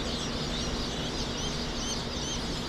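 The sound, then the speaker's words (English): Thousands of freshly hatched chicks peep together at Cackle Hatchery in Lebanon, Missouri, forming a dense, steady chorus of high, thin chirps that never pauses. No voices are heard. “The peeps of thousands of small, fuzzy, freshly hatched chicks drifts through Cackle Hatchery in Lebanon,”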